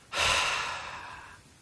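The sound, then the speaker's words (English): A single long, deep breath, loud and airy, swelling quickly and then slowly fading over about a second, with no talking. “Take a big breath in and now out.”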